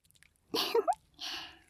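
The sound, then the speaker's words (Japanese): Lavender-scented oil or lotion is spread between the palms before an ear massage. A short, wet, squishy burst is followed by a smoother rubbing swish, both soft. “ラベンダーの爽やかな香りが漂ってきましたね。今私が手のひらで塗り広げているの、なんだかわかりますよね。”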